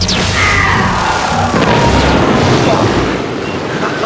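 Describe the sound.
A laser cannon fires in heavy, continuous blasts: descending electronic zaps cut through a dense, roaring boom that stays loud and rumbling throughout.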